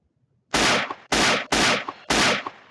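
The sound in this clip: Four loud gunshot blasts, evenly spaced about half a second apart, each a harsh full-bodied burst that cuts off abruptly, with no voices between them.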